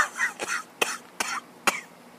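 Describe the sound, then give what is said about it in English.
Person coughing: four harsh, abrupt coughs with rough throaty sounds between them, loud and irregularly spaced. “Are you coughing up a fucking furball or something? No, or a lung, I hope.”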